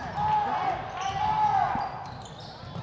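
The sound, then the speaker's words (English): A basketball dribbled during a girls' prep basketball game, giving a few soft, low bounces beneath a steady background hum of court noise. “still dribbling”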